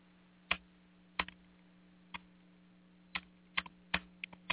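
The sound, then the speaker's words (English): Keys click on a computer keyboard in sparse, irregular taps, some single and some in quick pairs. The typing is light and quiet over a low, steady hum. “Hang on just one second. I got to type something.”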